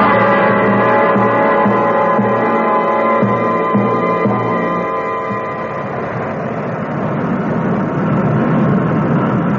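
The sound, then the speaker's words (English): An airplane coming in for a landing, its engines a loud, steady, layered drone with sustained tones that holds throughout and thickens slightly toward the end. “Coming in for the landing now.”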